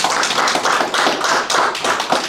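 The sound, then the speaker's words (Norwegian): A gathering at a Sunday meeting claps in unison, steady rhythmic bursts of many hands striking together at an even pace. “Gi en applaus.”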